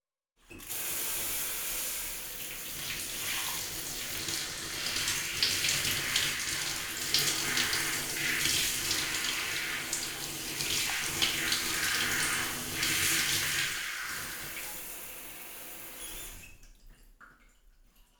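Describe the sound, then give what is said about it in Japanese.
Running water while a child's hair is washed, a steady loud rushing splash that continues without a break for about sixteen seconds and then stops abruptly. No one speaks. “次は頭洗ってあげる。”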